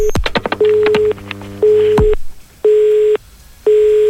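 Telephone keypad tones beep quickly as a number is dialled, followed by a steady line tone that repeats in short, even, loud beeps separated by brief gaps, on a call that goes unanswered.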